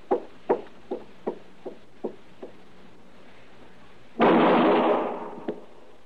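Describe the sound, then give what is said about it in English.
Gunshots in a radio drama: a run of sharp reports that grow fainter, then one loud blast that trails off in a long noisy decay. “All right, that's enough shooting”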